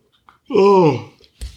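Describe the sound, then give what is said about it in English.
A person yawning, with one drawn-out voiced moan lasting about half a second that bends downward in pitch at its end, then a short low puff of noise. “you're making me yawn.”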